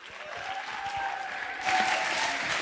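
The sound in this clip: An audience applauds to welcome a guest speaker at a talk, with dense, continuous clapping that holds steady and then swells a little louder toward the end.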